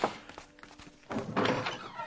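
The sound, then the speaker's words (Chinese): A door is opened with a faint thunk and a few soft clicks, followed by a brief, louder rush of rustling noise. “我去开门。”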